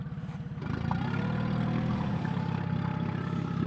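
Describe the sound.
A boat engine on a North Sea plankton-sampling trip is throttled up, its low, clattering drone thickening and growing louder after the first half-second, then holding a steady, heavy rumble.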